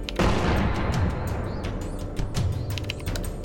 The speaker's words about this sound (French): Tire, ton arme est chargée.